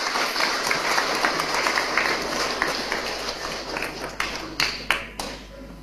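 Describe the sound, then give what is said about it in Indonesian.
A church audience applauds newly installed parish leaders, with dense, steady clapping that thins out into a few separate, sharper claps near the end. “Mari umat sekalian kita memberikan aplaus.”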